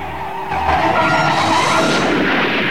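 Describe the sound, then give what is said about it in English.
A car skids while turning at a bend, giving a sustained, rough tyre and road noise that swells after a brief quieter start and holds steady. “Approaching a bend, she tries to turn the car in time.”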